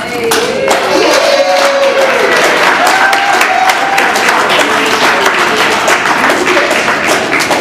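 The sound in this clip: Loud, dense audience applause for a speaker who has just been introduced. The clapping stays steady throughout, with a few whoops rising above it.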